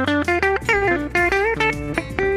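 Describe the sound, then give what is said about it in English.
Telecaster-style electric guitar played through its hot-rail bridge pickup in the low position, giving a punchy tone: a quick run of many picked single notes and short phrases, each note ringing with bright overtones, played alone without talk. “Now your bridge pickup that looks like a hot rail, but it still maintains that Tele sound”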